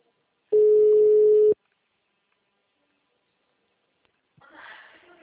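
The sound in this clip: Ringback tone of an outgoing telephone call: a single steady mid-pitched tone lasting about a second, followed by a long silence and a brief muffled noise at the end.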